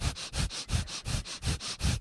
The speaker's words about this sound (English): sounds like you're having a really good time or having a baby breathing the breath of fire.